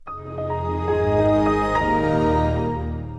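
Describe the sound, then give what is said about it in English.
Windows XP startup chime: a soft synthesized swell of layered tones with a few bell-like accents, building in loudness and then slowly fading out over about three seconds. “Yes, that's the sound for Windows XP.”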